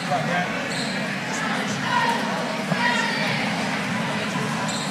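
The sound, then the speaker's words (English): A basketball is dribbled a few times on the court during the fourth quarter of a high school game, the bounces faint under a constant crowd murmur while an announcer talks. “Richard dribbles a few times and lets that one go.”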